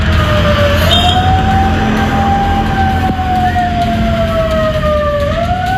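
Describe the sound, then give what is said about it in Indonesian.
Siren resembling an ambulance siren on Jalan Jenderal Sudirman in Pare-Pare, South Sulawesi: a loud, continuous wail whose pitch slowly rises, holds and drifts down before climbing again, over a steady rumble of street traffic. “pengendara di Jalan Jenderal Sudirman Pare-Pare Sulawesi Selatan ini dengan rapi menepikan kendaraan begitu mendengar ada suara mirip sirena ambulans.”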